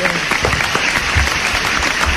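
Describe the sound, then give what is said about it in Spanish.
Audience applause at a talk, a dense burst of clapping that stays loud and steady for the whole two seconds. “Un aplauso para la radio.”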